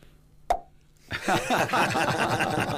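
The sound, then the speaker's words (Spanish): A champagne bottle is opened with a single sharp pop, a short silence, then a louder, denser sustained sound that continues to the end. “Y yo, aunque sea eufemísticamente, voy a abrir una botella de champán.”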